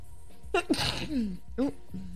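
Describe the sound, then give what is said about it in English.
A person lets out a single sneeze, a short voiced intake followed by a forceful, breathy burst, with brief vocal sounds after it. “We sneezed, but I'm okay.”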